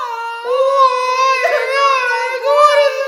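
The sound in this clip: Older sisters wailing and crying through the house, a loud, high-pitched, wavering lament that continues without a break.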